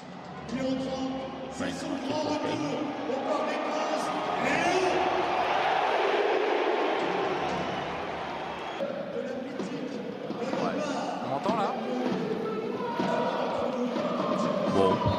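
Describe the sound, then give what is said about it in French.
A stadium crowd at the Parc des Princes gives a football player a warm ovation, a broad, sustained roar of cheering and voices that swells and eases across about fifteen seconds. “Oh, c'est une belle ovation, mais c'est pas non plus. Euh, pas un truc la de folie.”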